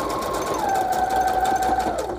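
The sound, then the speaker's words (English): Sewing machine running a straight stitch along the bottom of a mail pocket: a steady, unbroken motor whir with no talk, its pitch dipping slightly early on and then holding level to the end. “I want to preserve most of my pocket, so I'm gonna just do a straight stitch along the bottom. Okay. Just because I don't feel like coming off the thing. Okay, here we go. All right, straight stitching along the bottom.”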